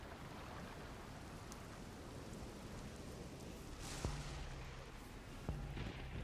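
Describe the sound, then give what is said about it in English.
Steady rain pelts a creaking ship rocking on unsteady waves in a storm at sea. The hiss is dense and continuous, broken twice by a sharp knock, each followed by a low, drawn-out groan. “As the ship begins to creak and rock on these unsteady waves, the rain pelting against you.”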